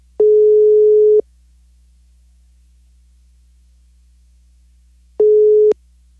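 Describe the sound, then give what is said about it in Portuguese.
Telephone ringing tone while a call connects: two one-second beeps of a single steady mid-pitched tone, separated by about four seconds of near-silence over a faint low hum. “Vamos lá, vamos ver se vai chamar. Tá chamando agora”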